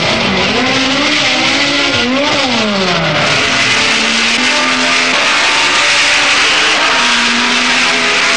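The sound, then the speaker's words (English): Racing cars roar away at the start of a Grand Prix at Brands Hatch in the Jim Clark era, loud continuous engine noise from several cars, their pitch climbing and dipping as drivers change gear. “And they're away. The race is over 80 laps of the 2.65-mile circuit. That's 212 miles. Two of them make an inauspicious start.”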